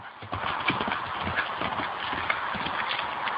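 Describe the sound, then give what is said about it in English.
Galloping hooves of a horse carrying a rider along a road through the woods: a steady, rhythmic clip-clop of rapid hoofbeats continuing throughout at an even loudness. “After a while, the young girl heard the sound of galloping hooves coming up behind her, and she stepped off the road to let a horse ridden by a rider in a blazing”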